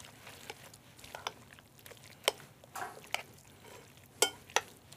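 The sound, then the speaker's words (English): Fresh ricotta being mixed into a filling, soft, wet stirring punctuated by a few sharper clicks of a utensil against the bowl, quiet throughout. “When you get fresh ricotta, it's beautiful. And that's what they use at Abruzzi. That's what we got for today. So just mix this in. And you can see it just starts to form into a beautiful...”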